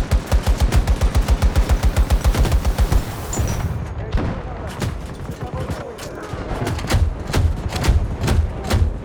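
Automatic gunfire in a multiplayer shooter video game: a rapid, regular stream of loud shots for several seconds, then scattered, irregular shots and thuds.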